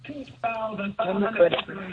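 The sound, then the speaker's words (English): A caller's radio plays in the background and carries over the phone line as narrow, muffled audio with voices, in uneven bursts with short gaps. “Can you turn your radio down?”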